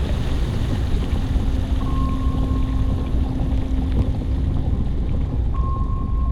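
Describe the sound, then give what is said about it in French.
A submarine diving into the ocean gives a steady, dense rumble of engine and rushing water that holds constant throughout, with faint sustained hums running through it and no voices. “On referme les portes. C'est parti! Let's go, les zozos! Yahoo! Le sous-marin s'enfonce dans l'océan.”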